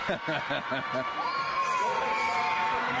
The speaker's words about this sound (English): That is the crowd going nuts once again for the free passes.